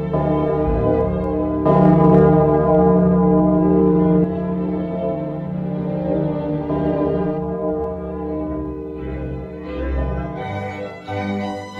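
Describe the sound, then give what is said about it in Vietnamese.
A village pagoda bell rings out with a deep, resonant tone, struck once and left to hum and slowly fade over several seconds. “Tiếng chuông chùa vang xa, bao phủ khắp mọi nơi.”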